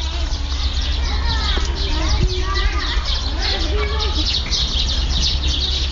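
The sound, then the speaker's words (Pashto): Children at play near an old, half-ruined historic fort set among trees, with high, chirpy voices calling and shouting over a constant bed of loud, dense background noise. “له کلا سره نږدې ماشومان په لوب بوخت دي.”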